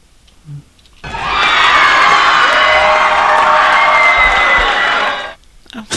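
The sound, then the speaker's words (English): A studio audience cheers loudly, a dense roar of whoops and shouting voices that swells in and holds steadily for about four seconds before cutting off. “Well, that was a loud cheering there.”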